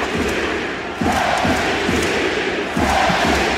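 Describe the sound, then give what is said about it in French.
A basketball arena crowd chants for Victor Wembanyama, loud and rhythmic, with repeated voiced pulses that stop after the first burst and then return over a constant roar. “Alors ce genre de chant est habituel pour Wemby, mais celui-là, il a particulièrement fait trembler les murs de la salle.”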